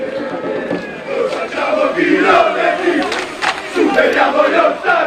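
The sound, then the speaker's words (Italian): Football fans chant together in the stands at a match, a loud massed crowd chant that swells after a quieter start and surges in waves as voices rise and fall together. “andiamo a vedere proprio il gruppo di tifosi che vi stavamo già citando poc'anzi.”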